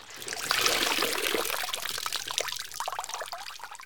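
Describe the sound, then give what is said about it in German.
Water squeezed out of apple mush, a continuous wet trickling and squelching with small splashy bursts, fairly faint and steady throughout. “Hier wird dann noch Wasser aus dem Brei herausgepresst. Ungefähr so.”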